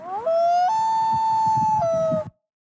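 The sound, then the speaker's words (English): A recorded loon call rings out alone as one long, clear wailing note. It steps up to a higher sustained pitch, drops back near the end and stops abruptly, with a soft low rumble beneath. “Love hearing that loon call. But you know what? That was recorded.”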